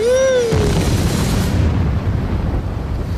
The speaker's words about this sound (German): Die Bombe.